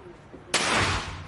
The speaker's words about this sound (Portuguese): Eu vou atirar agora aqui, de manhã, porque vai derrubar um. Com a pistola, .50.